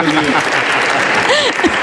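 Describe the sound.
An audience claps in loud, dense, steady applause, with voices heard over the clapping.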